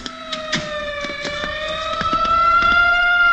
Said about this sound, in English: The ambulance heading for the Park Hamilton.